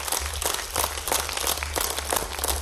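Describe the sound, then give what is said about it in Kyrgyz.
Audience applause welcoming a poet at a poetry evening: a short burst of steady, many-handed clapping, evenly loud across its few seconds with no voices over it. “Кол чабуулар менен тоз алыңыздар, Максат Жангазиев.”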